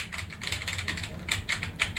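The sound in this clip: Computer keyboard typing as a search term is entered into a website, a quick, irregular run of many light clicks at moderate level with no talk.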